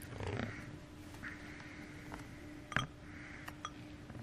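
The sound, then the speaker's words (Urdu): Glasses clink in a sound-guessing round on a game show: a few faint, bright chimes, one sharper than the rest, over a quiet hiss. “جی ہاں, شیشے کے کھنکنے کی آواز ہے.”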